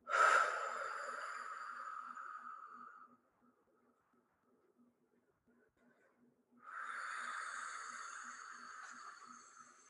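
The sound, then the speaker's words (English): Deep breathing from an audience during a morning service: two long, airy rushes of breath separated by a quiet pause of a few seconds. “Let's take a few breaths before we continue with our Baruch Hu chant.”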